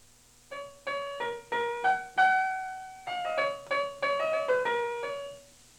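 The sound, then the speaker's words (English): Section A of a sonatina's first movement: a melodic instrumental passage of many distinct, clear notes in a moving line at a moderate tempo, ending on a held note, with no voices. “Our third example is the first movement of the same sonatina. Section A sounds like this.”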